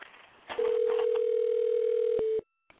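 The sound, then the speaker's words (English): A telephone dial tone hums as a steady, pure mid-pitched tone for about two seconds, entering after a soft rustle and ending abruptly with a click, then near silence and another faint click. “we're ready for you to dial.”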